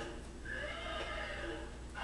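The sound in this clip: A toy horse gives a whinnying neigh when its handle is twisted, a steady wavering call lasting about two seconds.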